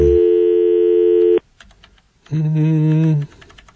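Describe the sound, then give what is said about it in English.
Two sustained electronic telephone tones from dialing a phone, each steady and buzzy, the second lower in pitch than the first, separated by a short gap of faint low noise. “You don't have to dial a 9 here, right? You just dial direct.”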